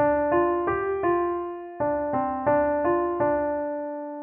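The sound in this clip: A simple lullaby melody built from the notes D, F, G and C, played as clear, gently decaying single tones at an unhurried pace, with a short pause midway and no voices.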